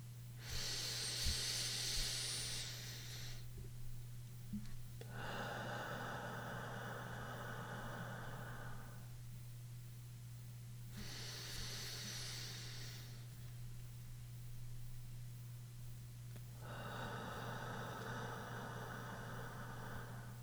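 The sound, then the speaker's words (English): Slow guided breathing with long exhalations: two cycles of an airy inhale followed by a longer, softer exhale, quiet over a steady low hum. “Every exhalation should be the same. You can breathe along with me.”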